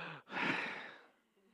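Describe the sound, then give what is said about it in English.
An audience at a church service takes a deep breath together, heard as one long, soft, breathy exhale that swells after a brief pause and then fades away. “Okay, hang on a second. It's getting off quiet. Everybody take a deep breath.”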